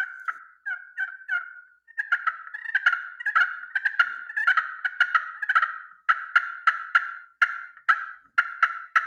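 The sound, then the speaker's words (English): Yelps from a turkey game call with a slate top and glass bottom. A few slower strokes open a rapid run of many sharp, raspy notes, with no voices over them. “I had him do some work on one of the calls that I had before, and we changed up the tops. We got a slate top and a glass bottom.”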